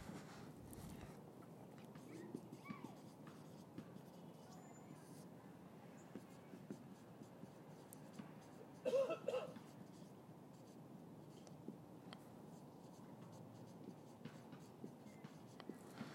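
Pen or pencil writing things down, with faint, irregular scratchy strokes over a steady low background hum, quiet throughout.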